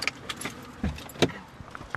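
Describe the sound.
Keys jangle as people pile into a car, with a few sharp knocks and rustles and a couple of louder thumps midway, and no talk.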